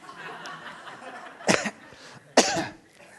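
A person with phlegm gives two loud, rough coughs about a second apart over a faint low murmur.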